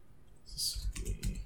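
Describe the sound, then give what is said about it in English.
Notes are typed on a computer keyboard in a short, quiet burst of a few clicking keystrokes. “And I'm taking notes in the Google Doc as well.”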